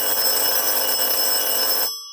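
A telephone rings while someone places a call: a steady, bright electronic ringing tone that holds for about two seconds and then cuts off abruptly.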